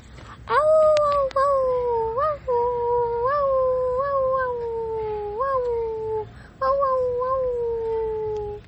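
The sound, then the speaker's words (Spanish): A voice imitates a she-wolf howling, giving a few drawn-out, wavering wails that each slide downward in pitch, separated by short breaks. “Ruido de la loba.”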